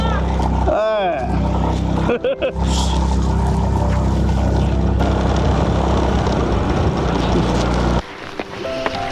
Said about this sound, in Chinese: 走了一半坡有点陡，然后我们的这个龚大叔的摩托车就上不来了。